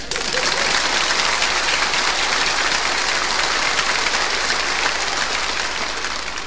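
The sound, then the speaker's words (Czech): Audience applause in a comedy sketch about a clapping course, dense, steady clapping that stays level for about six seconds. “Je to fajn, teď už budou tleskat všemu.”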